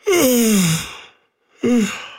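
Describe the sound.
A voiced human yawn, a long moaning tone that slides downward in pitch, then a shorter second yawn with the same falling sound after a brief silence; fairly loud and alone.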